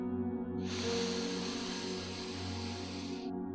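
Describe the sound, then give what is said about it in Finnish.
A deep cleansing breath, drawn in through the nose and let out through the mouth, forms one long airy hiss over soft, steady background tones. “Otetaan vielä yhdessä puhdistava hengenveto sieraimista sisään ja suusta ulos. Eli hengitä syvään sisään”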